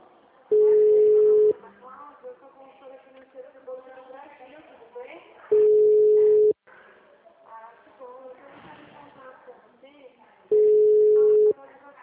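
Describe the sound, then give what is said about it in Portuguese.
Telephone line tone on a call, three long steady beeps about five seconds apart with a person talking in the gaps between them. “Tá tocando aqui pra ela. O número está ocupado.”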